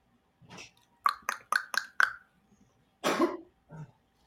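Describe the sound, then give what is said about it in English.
A person coughing, a dry run of five sharp coughs in quick succession, with a softer burst before them and a longer, heavier cough and a short final one after a pause. “coughing on my podcast”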